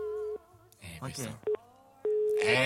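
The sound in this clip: A telephone busy tone sounds after the other party hangs up: a few steady beeps at a single pitch, one of them very short. People talk in the gaps between the beeps.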